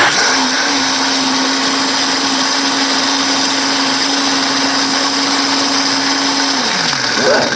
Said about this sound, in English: Okay, so we're ready to make some noise. Oh, yeah. All right, here we go.